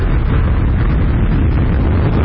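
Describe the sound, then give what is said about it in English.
Deep, continuous roar of a recycled SpaceX rocket lifting off from Kennedy Space Center in Florida with four astronauts aboard. A loud, unbroken rumble, heavy in the low end, holds steady for the whole stretch. “SpaceX has successfully launched four astronauts into space aboard a recycled rocket about 6 a.m. Eastern Friday morning.”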